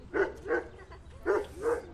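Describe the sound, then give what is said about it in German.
Dogs whimpering in animal shelter kennels: four short, whining mid-pitched cries arriving in two pairs with a brief pause between them, heard alone. “Manche Hunde winseln auch.”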